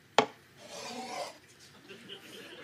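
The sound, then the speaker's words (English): A drink glass is set down with one sharp knock on a wooden bar, then slides across it with a short rough scraping rub lasting under a second. Faint low rustling follows. “Wood scrape. Wood scrape? When you slide the drink across the bar to me.”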